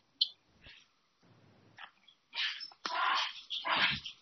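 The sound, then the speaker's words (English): A passing dog gives a few faint, short barks and whimpering sounds in separate bursts with quiet gaps between them. “it's just that there is a dog passed by.”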